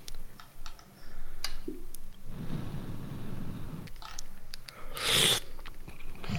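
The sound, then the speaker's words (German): Quiet chewing as someone eats beans: soft moist smacking and small clicks, with a denser patch of squishy mastication in the middle and scattered crunchy bites. “Jetzt kann ich ja meine Bohnen essen.”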